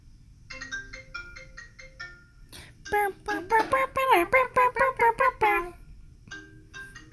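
A phone ringtone signals an incoming call: a run of quick, repeated electronic tones, then a louder melodic phrase of many rapid notes that ends abruptly and is followed by a few fainter tones.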